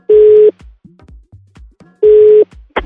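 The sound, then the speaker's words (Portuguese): Telephone ringing tone while placing a call: two steady, low-pitched tone bursts about one and a half seconds apart, with faint line clicks in the gaps between them. “Então vamos ligar pra Caterine.”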